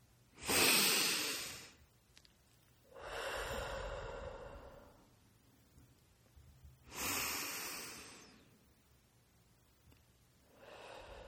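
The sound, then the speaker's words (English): Deep breathing, in through the nose and out through the mouth, over about two slow cycles. Sharp, hissing nasal inhales alternate with longer, softer, breathy exhales, with quiet gaps between and no talk. “We're going to take some deep breaths in through the nose, fill the lungs, and out through the mouth.”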